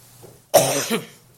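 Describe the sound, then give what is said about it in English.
A single loud, throaty cough bursts out and fades after about half a second, standing alone over a faint low hum. “Now, that's my first cough.”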